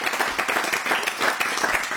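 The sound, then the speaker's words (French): Applause from a small group gathered at a table, welcoming someone: a steady, dense patter of hand claps that holds at an even level for the whole clip. “Ouais, vas-y, viens, on l'applaudit. Non, je ne connais pas. On peut l'applaudir.”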